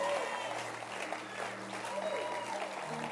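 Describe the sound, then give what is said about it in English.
A church audience clapping their hands, a dense, steady wash of applause that runs the whole time beneath voices. “Don't stop clapping your hands.”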